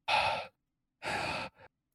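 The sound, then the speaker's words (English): A voice imitates the heavy breathing of a video game monster: two long, hissing breaths of about half a second each, then a short, quieter puff, with silence between them. “you hear him breathe very heavily. Like, I don't think you could hear that. So I'll put the mic closer to my face.”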